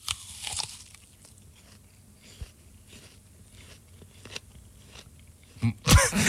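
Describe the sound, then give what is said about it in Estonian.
Biting into and chewing a real apple: many faint, crunchy chews in steady rhythm, with louder crunches at the start and a sharp, loud bite near the end. “Ei, ma ei hoia päriselt, ma söön päriselt õuna.”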